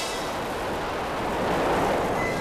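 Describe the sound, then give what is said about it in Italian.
A firework rocket roars as it speeds away, a dense, steady rushing hiss with no breaks that swells slightly louder toward the end. “Poi si spostò mentre il razzo investiva Shen Yu e se lo portava via.”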